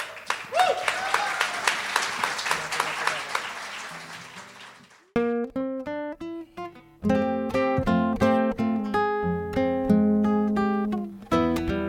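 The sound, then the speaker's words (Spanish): Applause welcoming a performer onto a concert stage: dense, energetic clapping for about five seconds, then plucked melodic instrumental notes take over. “Con un fuerte, fuerte aplauso y mucho cariño recibimos a Susy Choc.”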